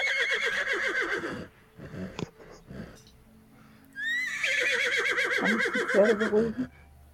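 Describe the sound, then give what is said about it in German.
Restless horses neigh and whinny: a long, shrill whinny, a pause with faint snorts and shuffling, then a second, longer whinny that opens with a rising squeal. “Die Pferde, die werden langsam unruhig.”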